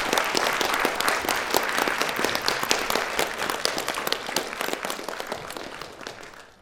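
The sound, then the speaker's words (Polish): An audience applauds performers as they bow at the end of a stage show, with dense, rapid clapping that holds steady and then tapers off toward the end. “Kłaniają się, kłaniają, tu biją brawo i wychodzą.”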